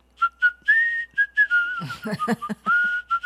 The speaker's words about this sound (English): I can whistle without showing it in my lips.